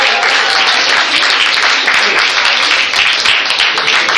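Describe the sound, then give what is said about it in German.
Loud, sustained applause from an audience at a stage show in Berlin as a guest is introduced, many hands clapping densely and evenly for about four seconds. “Applaus für Axel aus Paris.”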